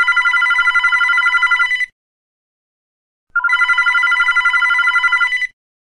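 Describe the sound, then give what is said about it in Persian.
A telephone rings twice: two loud, trilling bursts of about two seconds each, separated by a short silence, with nothing else heard. “نزدیک ظهر بود که ساسان دوباره زنگ زد.”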